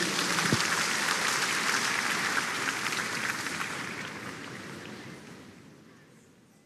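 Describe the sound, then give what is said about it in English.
Church audience applauding in praise of the Lord, a dense, rushing clatter of many hands clapping at once that starts loud and gradually fades away toward the end. “Please give the Lord a big hand of praise,”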